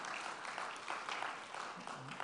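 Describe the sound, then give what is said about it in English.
Faint, continuous applause from a church audience during a sermon, clapping to honour the preached word: a dense, even patter of many hands held at a low, steady level throughout. “Yes, clap. Go ahead, clap. Not for me, but for the word.”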